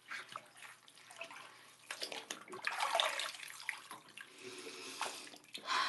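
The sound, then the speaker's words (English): Shower water running: a continuous hissing spray that swells and thins as the flow shifts, fairly soft and without any talk. “I kind of wish that the water was hotter, but it's also like a really nice, comfortable temperature. I'm, you know, your typical girl who likes to shower in water that is much too hot for”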